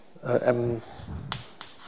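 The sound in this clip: Handwriting comes through as light, scratchy strokes following a brief voice, with short rough scrapes of the writing tool that stay quiet and are irregularly spaced.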